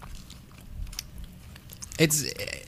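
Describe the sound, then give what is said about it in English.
Someone crunches and chews nacho fries dipped in cheese-snack slime: a few soft, wet bites and chews, then a short voiced exclamation near the end. “All right, how does this taste? Nacho fries and Cheeto slime.”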